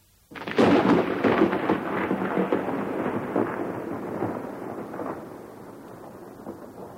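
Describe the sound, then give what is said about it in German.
Thunder rolls through steady rain: one sudden heavy crack-onset swells into a long, low rumbling roll that slowly fades under a continuous wash of rainfall, with no voices. “Sind Sie heute schon draußen gewesen? Es regnet noch immer.”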